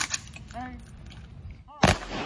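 A single loud, sharp rifle volley rings out at a Memorial Day salute, following a shouted command, then fades into a short ringing tail.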